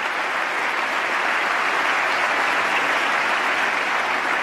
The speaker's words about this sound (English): Congress, applause.